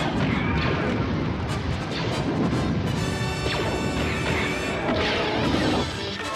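Blaster fire rings out in a science-fiction shootout with guards, a dense run of loud zapping shots and crashing impacts that overlap with one another for the whole stretch.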